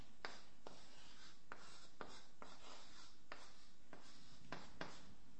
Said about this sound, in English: Let me write it down, see if I can remember.